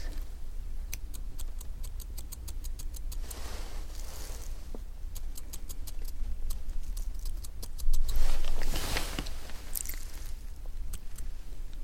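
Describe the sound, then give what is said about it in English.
Scissors snipping eyebrows during a brow waxing and tinting session, crisp quick clicks in a few separate bursts with soft rustling between them. “And I'm going to just cut your brows.”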